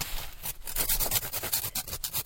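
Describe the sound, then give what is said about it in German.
Pieces of an ice core are cut and filed to shape for a radio-wave measuring device. The rasping and scraping runs continuously, with irregular strokes and a gritty texture. “Golden schneidet Stücke aus verschiedenen Lagen im Eisbohrkern heraus und feilt sie für seine Messapparatur zurecht, die das Eis mit Radiowellen bestrahlt.”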